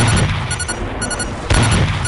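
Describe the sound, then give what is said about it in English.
Deep explosive booms as a tank is hit and destroyed: a loud rumbling burst at the start eases off, then a second heavy burst strikes near the end. “Good one. Case. The tank is down.”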